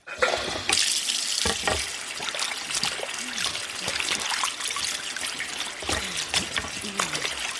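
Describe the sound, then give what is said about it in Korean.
Water runs steadily from a scale-crusted faucet and splashes onto an apron, a loud, continuous rushing stream with fine spattering throughout. “물때가 낀 수도꼭지를 돌리자 물방울들이 앞치마에 튀었다.”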